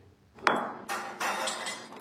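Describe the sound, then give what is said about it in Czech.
A barista prepares a cappuccino at a café coffee machine in Prague. A sharp clink and knock come first, followed by a couple of broad hissing bursts, all fairly quiet and with no talk. “Jste u kávovaru? Momentálně chystám kapučino.”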